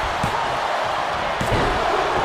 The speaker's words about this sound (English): Oh, what a belly-to-belly by Scott Steiner. Goes for the pin.